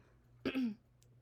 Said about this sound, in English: What was that? I literally just cleared my throat